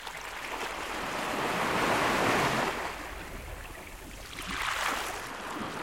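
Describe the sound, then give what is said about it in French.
Sea waves roll and wash, with a broad hiss swelling to a peak, easing off, then surging again in a second, smaller crest, and a light rush of wind throughout. “J'aime le son de la mer parce que j'aime la mer.”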